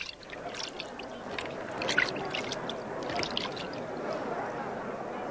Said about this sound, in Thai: อ่างน้ำเข้ามาสิเราจะล้างมือ